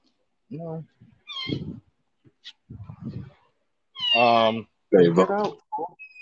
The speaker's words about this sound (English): Sorry, one of our cats knows how to open our bedroom door, and then it fucks it up for everybody else.